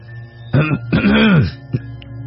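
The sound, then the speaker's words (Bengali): Someone clears their throat a couple of times in the dark, a short rough burst followed by a longer, groaning one, then a brief throaty catch. “এরপর মনের সমস্ত সাহস জড়ো করে দু একবার গলা ঘাঁকারি দিয়ে অন্ধকারই প্রশ্ন শুনলাম,”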